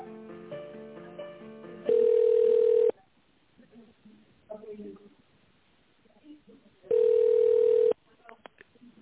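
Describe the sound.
Telephone line tones while a call is transferred and put on hold: a short run of stepped tones opens, then two long, loud, steady beeps several seconds apart, with faint voices in the gaps.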